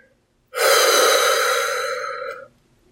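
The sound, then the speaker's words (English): A single long, deep breath, loud and airy, rising sharply and holding steady for about two seconds before cutting off into silence. “Take a deep breath. Enjoy the fresh air. Breathe out.”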